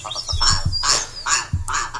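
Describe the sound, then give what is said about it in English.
Willow ptarmigan calling: a short series of harsh, croaking, rattling bursts with deep throaty thumps beneath them, loud and close together over about two seconds. “Ooh, that is the majestic willow ptarmigan doing his call.”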